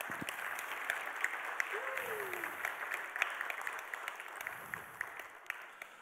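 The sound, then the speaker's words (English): Congregation applause in a church as new members are welcomed into membership: dense, steady clapping from many hands that holds at an even level for the whole stretch. “So I want you to take your right hand and join it with your left hand and welcome them into membership.”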